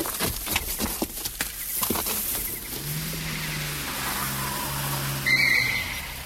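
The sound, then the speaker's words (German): A black Mercedes car driving, a low steady engine hum that sets in partway through, preceded by a series of sharp clicking knocks. “Ein schwarzer Mercedes.”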